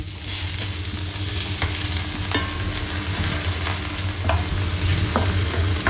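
Onions frying in a pan for a Spätzle dish give a dense, steady sizzle, with a few light scraping clicks from stirring and no voices.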